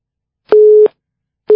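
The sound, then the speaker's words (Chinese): Telephone busy signal after a call is cut off: a loud, steady low tone in on-off pulses, one full pulse followed by the start of the next. “可这个电话真的是麻烦，刚刚打通了就挂掉了。”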